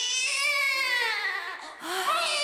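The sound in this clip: A baby boy cries while being washed and wrapped: a continuous, wavering high wail that breaks off briefly partway through, then resumes.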